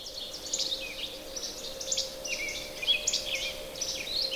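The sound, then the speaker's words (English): A Philadelphia vireo sings short, high, whistled phrases. Several phrases repeat in an irregular series separated by brief pauses, all fairly faint over a steady low hum. “Anyway, the bird is a Philadelphia vireo.”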